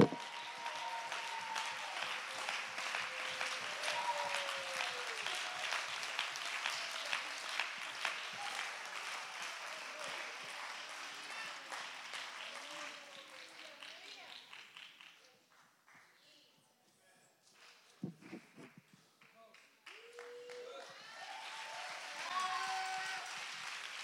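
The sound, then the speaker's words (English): A church audience claps their hands and shouts during a sermon, with steady rhythmic claps running under loud voices, dropping away for a moment, then returning. “Somebody clap your hands and shout.”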